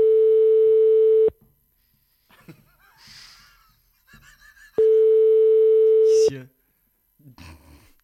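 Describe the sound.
Ringback tone of an outgoing telephone call: two long, steady, loud tones, each lasting over a second, separated by a pause of several seconds in which people talk softly.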